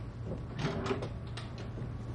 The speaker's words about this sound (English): Michelle opens a drawer